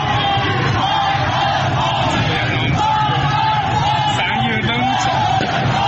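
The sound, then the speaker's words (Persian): A large protest crowd in Izeh, Iran, chants slogans against the country's supreme leader and officials. The many voices shout together in a dense, continuous roar that stays loud throughout. “این اعتراض‌ها از جمله در شهر کرد، اندیمشک، درود و ایزه رخ داده و در آن معترضان علیه رهبر جمهوری اسلامی و دیگر مقام‌های نظام شعار دادند. صدای ویدیویی از ایزه را می‌شنوید.”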